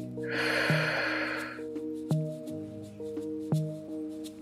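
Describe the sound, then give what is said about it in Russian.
A deep inhale through the nose during a breathwork practice, done lying or sitting, rises as a soft airy rush over calm music with sustained low tones and a few gently struck notes. “Сделай глубокий вдох через нос. И мягкий плавный выдох через рот.”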